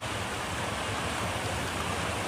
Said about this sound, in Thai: เป็นภาพเหตุการณ์ขณะที่น้ำป่าไหลหลากในพื้นที่บ้านเทิดไทยหมู่ที่1ตำบลเทิดไทยอำเภอแม่ฟ้าหลวงจังหวัดเชียงรายหลังฝนตกลงมาอย่างหนัก